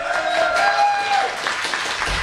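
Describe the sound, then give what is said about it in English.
A round of applause from a live studio audience on a morning talk show, a busy patter of many hands clapping at moderate loudness that eases slightly toward the end. “How about a round of applause for her?”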